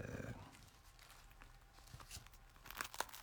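Faint, crisp crunching comes from bites into thick toast filled with plenty of red bean paste and butter. Soft crackles build into a few sharper crunches near the end.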